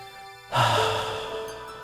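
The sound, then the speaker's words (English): A deep meditation breath drawn in through the nose and let out through the mouth: after a quiet moment, a long airy rush begins and stays fairly strong to the end, over a soft steady background tone. “So sit comfortably, close your eyes, and take a deep breath. Inhale deeply through the nose and exhale through the mouth.”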